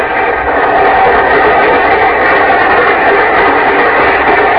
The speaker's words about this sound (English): I detest train rides.